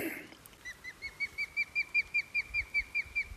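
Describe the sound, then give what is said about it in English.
A bird gives a serious alarm call near its nest: a fast, even series of many short, sharp, high notes, fairly faint over a low background rumble. “That's the male over there. That call there is the um, seriously alarmed call, and up there is the other bird.”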